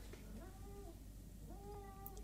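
A cat meows twice in a video sent in to a radio show. Each cry is a drawn-out, wavering, mid-pitched call, faint beneath a steady hiss.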